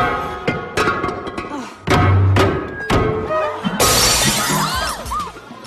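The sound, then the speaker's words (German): Ceramic vase smashed at a wedding by the maid of honour: a couple of dull thuds lead up to one loud, bright shattering crash, followed by a spray of scattering fragments. “Los, Zeit, die Vase zu zerschlagen. Die Trauzeugin zerbricht eine Vase.”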